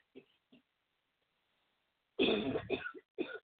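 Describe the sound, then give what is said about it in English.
Coughing from a person whose drink went down the wrong way: two faint, brief sounds, then a harsh burst of a few quick coughs in close succession. “Forgive me, please, for the cough, but I was drinking something and it went down the wrong way.”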